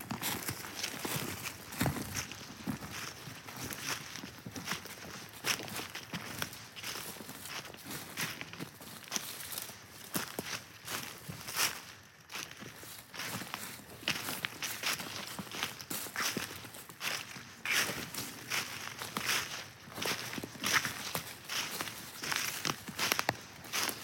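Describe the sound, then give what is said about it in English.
Footsteps of a walker head up a hill along a trail, many crisp, slightly irregular steps continuing steadily from start to finish without talk. “So we're going to head right up that hill following this trail. So follow me.”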